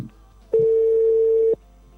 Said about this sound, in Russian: مراتبه دویم زنگ بیرود انتظاری جواب استم.